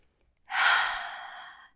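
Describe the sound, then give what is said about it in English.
A single deep exhale, a soft airy rush that starts suddenly, lasts just over a second and fades away, taken during a guided relaxation breathing exercise. “I just want you to take a really deep breath in through the nose and out through the mouth.”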